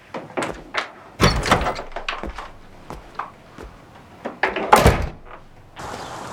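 A front gate door being opened as two people leave a house: many irregular knocks, clunks and rattling clacks, several louder bangs among them, ending in a steady hissing noise.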